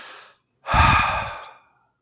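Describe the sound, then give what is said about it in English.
A voice imitates someone exhaling, with a short breathy puff followed by a longer, louder sigh-like exhale that fades out. “I very clearly heard what sounded like somebody exhaling right next to my head.”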